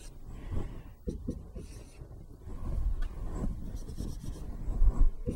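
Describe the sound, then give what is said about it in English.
Soft, scratchy strokes of writing out a linear cost equation for a math example, faint irregular rubbing and short scraping marks with brief pauses between them. “I'm just writing the linear term first now and then the constant overhead after.”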